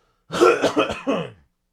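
A person clears their throat in a few short, raspy bursts close together, loud and alone, followed by silence.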